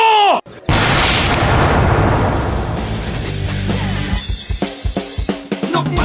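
A firing squad fires a rifle volley at an execution: a sharp blast bursts into loud, dense crackling noise that gradually thins into scattered pops.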